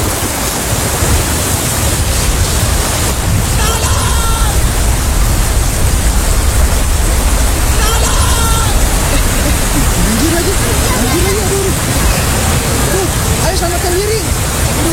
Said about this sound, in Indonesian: hujan lagi gimana dong? Iya hujan ya. Selama kita di sini, perasaan hujan terus deh.